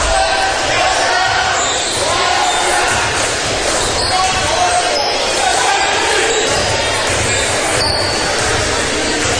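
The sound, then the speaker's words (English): A basketball dribbled at the center circle during a first-quarter game, its steady bounces sounding under constant crowd noise while a commentator talks. “Dribbling the ball in the center circle.”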